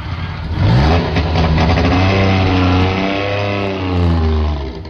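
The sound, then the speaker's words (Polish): A 1957 Syrena, a Polish-built car, starts its engine in light frost and revs it. The mid-pitched engine drone climbs in pitch as it is revved, then settles into a steady, buzzing run. “62 lata temu rozpoczęto produkcję Syreny, samochodu polskiej konstrukcji. Rok 1957. Uwaga, kluczyki do stacyjki i jedziemy.”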